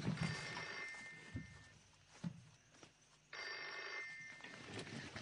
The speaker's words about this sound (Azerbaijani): Telefona gərək cavab verəm. Bayan, özüm cavab verirəm.